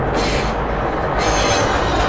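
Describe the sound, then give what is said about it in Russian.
A train comes out of a tunnel and runs along a railway through a deep ravine below a bridge. Its steady, loud rumbling roar continues throughout, and the hiss above it briefly thins partway through. “Из туннеля выезжает поезд, въезжает в купальни.”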